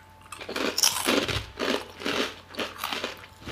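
Someone bites into and chews a fishy-smelling crunchy snack, producing many crisp, loud crunches in a steady chewing rhythm.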